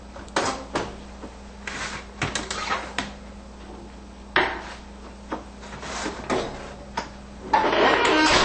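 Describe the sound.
A baking pan of rolls is lifted out of an oven, giving several sharp metallic knocks and clatters with quieter scraping between them, then a steady rushing noise at the end.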